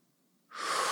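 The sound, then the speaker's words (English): Deep exhale during a breathing exercise: after half a second of near silence, a strong, airy rush of breath begins and holds steady and loud to the end. “and release, exhale, push out all of that air again”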